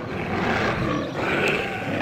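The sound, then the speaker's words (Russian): A tiger roars in a loud, rough, sustained growl that runs for about two seconds, dips briefly midway, then swells again. “Ой, кажется, на тигра! Точно!”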